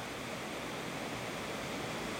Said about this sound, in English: To the left hand side of the bridge there's a weir which is carrying the water a bit further down the valley, and to the right the water is extremely calm indeed before it rushes over the apex of the weir.